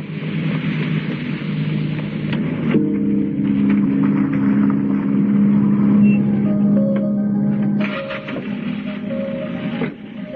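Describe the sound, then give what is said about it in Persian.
A taxi pulls away on a dark, rain-wet city street, with a steady engine rumble and droning tonal hum under constant background noise that eases slightly near the end. “تاکسی به راه می‌افتد.”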